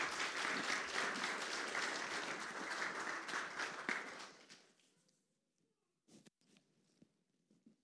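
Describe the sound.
An audience applauds to welcome a speaker to the stage. The dense, steady clapping fades out over a few seconds, followed by a few faint scattered sounds in the quiet.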